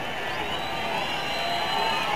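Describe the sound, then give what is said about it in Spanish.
A baseball stadium crowd protests an umpire's call with a steady, dense din of many voices. The noise holds at an even level with no distinct peaks. “El público está protestando la determinación de Carlos León.”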